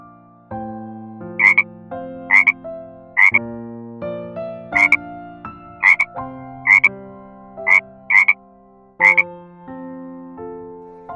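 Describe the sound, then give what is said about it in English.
Nine short, sharp frog croaks repeat at a fairly even pace, each a bright burst over a backdrop of stepping, sustained musical tones. “Frog.”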